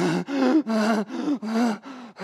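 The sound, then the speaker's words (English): A voice imitates gasping for breath, mimicking altitude sickness while climbing stairs in Colorado: a rapid series of strained, voiced gasps and groans in an uneven rhythm, fairly loud and alone. “You can't breathe. Why? Because the air is too thin, and you start experiencing altitude sickness symptoms, like shortness of breath.”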